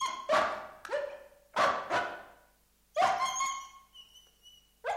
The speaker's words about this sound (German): Warum heult der Hund?